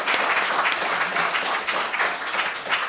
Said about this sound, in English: So big hand to the audience.